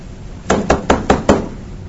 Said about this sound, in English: look, if somebody knocked on the door,